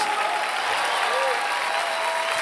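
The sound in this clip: An audience at a church service gives sustained applause, a dense, steady clatter of many hands at an even, fairly loud level from start to finish.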